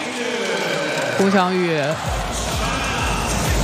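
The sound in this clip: A volleyball bounced on the court ahead of a serve during a match: a few low, dull thumps in a steady rhythm in the second half, over a constant hum of crowd noise.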